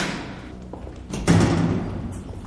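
A door being opened on a hospital ward, heard as a single dull thump partway through against a steady, noisy background.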